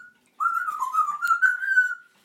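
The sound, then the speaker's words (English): A pet parrot whistles a continuous warbling tune. The clear, mid-pitched tone wavers up and down for about a second and a half and then stops, with no talking around it. “She's a very happy little parrot, isn't she?”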